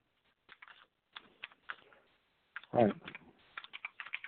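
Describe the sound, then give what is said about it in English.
Clicky keystrokes on a computer keyboard as someone types in a search. The strokes come in short, irregular bursts separated by brief pauses, with one heavier thump partway through. “I'm already typing it in. I found it already.”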